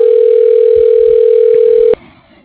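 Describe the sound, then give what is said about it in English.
A telephone system dials an extension with a loud, steady single tone. The tone holds evenly, then cuts off abruptly and leaves faint line hiss. “dialing Steve Prout. Extension 119.”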